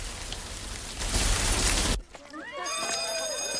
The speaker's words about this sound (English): He looks up at the sky as rain starts to fall.